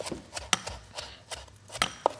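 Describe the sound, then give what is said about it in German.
A knife chops fresh herbs on a cutting board in a kitchen, making a run of quick, irregular, crisp strikes. “In der Zeit kann ich nämlich hier weiterhin meine Kräuter hacken.”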